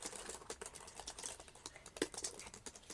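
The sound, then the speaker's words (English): Faint, rapid keystrokes patter on a computer keyboard as a person's name is typed into a web search, a quick, irregular run of many light clicks with no voices. “I think I typed Piers Pierce. Let me just erase that.”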